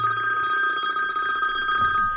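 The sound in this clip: A telephone rings with a continuous, bright, high-pitched electronic tone that holds steady and loud throughout, with no talk over it.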